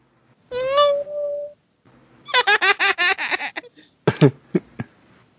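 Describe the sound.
A cat meows once in a sustained, falling call during a film scene. A run of quick, high-pitched vocal bursts follows, then a few sharp clicks.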